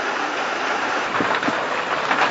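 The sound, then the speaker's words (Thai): Steady rain that is nearing its end, falling during an outdoor Buddhist sermon on a mountain, heard as an even, continuous hiss with no voices over it. “ตอนนี้ฝนก็ใกล้จะหยุดแล้ว”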